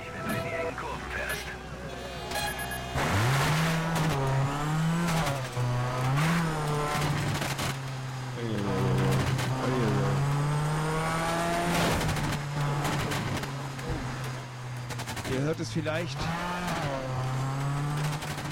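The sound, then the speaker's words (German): Rally car engine in a racing video game demo on Xbox 360, driving over a mountain: a steady revving drone that keeps swelling and dipping in pitch, with voices talking over it throughout. “Ihr hört es vielleicht, wir versuchen hier gerade mal heil über den Berg zu kommen. Mit der Demo-Version von Colin McRae Dirt für die Xbox 360”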